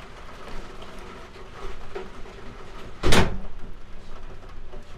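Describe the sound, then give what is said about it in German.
A window is shut with a single short, sharp clack midway through, rising briefly above a steady background hiss of outdoor noise. “Ich glaube, ich werde mal das Fenster zumachen, oder? Warte mal, vielleicht ist es da ein bisschen leiser.”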